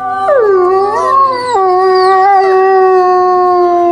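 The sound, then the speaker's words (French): A grey wolf howls in one long, loud, unbroken call. Its pitch wavers and dips partway through, then settles into a steady held tone. “le loup gris.”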